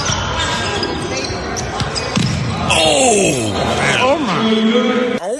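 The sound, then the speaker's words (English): A man's head and body slamming onto the floor during a rec-league basketball game, heavy thuds among ball bounces and court noise, with people talking loudly throughout. “Holds for the pump fake, and that noise is his head. His body.”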